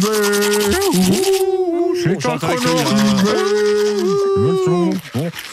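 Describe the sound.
A man sings a tune while brushing his teeth in a bathroom, the wavering melody muffled by the brush, with scratchy scrubbing strokes beneath the voice.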